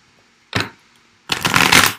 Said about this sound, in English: I'm already seeing some good cards in the shuffle.